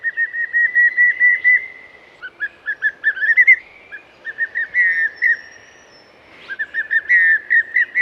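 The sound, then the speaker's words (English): A pallid cuckoo, an Australian bird, whistles long runs of clear notes in a quick, even rhythm. Its phrases climb in pitch, loud and alone. “It is indeed the pallid cuckoo. It's a long and slender cuckoo with a clear yellow eye ring and sharp pointed wings.”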